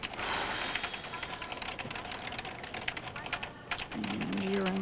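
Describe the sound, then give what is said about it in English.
A ticket agent at an airport counter types rapidly on a computer keyboard, making a soft, continuous patter of many quick key clicks with a short break near the end. “As the agent types speedily on her computer, Greg drums his fingers on the counter.”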